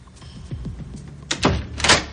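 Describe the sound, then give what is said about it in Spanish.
A door is closed with its upper latch left open: a few soft knocks and clicks, then two louder thuds with a brief scraping quality near the end. “cierra la puerta dejando el pestillo superior abierto.”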